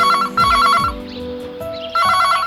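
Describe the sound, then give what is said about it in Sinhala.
A telephone rings with an electronic ringtone, sounding bright, repeated warbling bursts that break briefly into a softer lull before resuming. No voices are heard. “එහින්දා දහර මේ phone call එක බලාපොරොත්තුවෙන් හිටපු call එකක්. දහර ඉක්මනට ගිහලා phone එක answer කළා.”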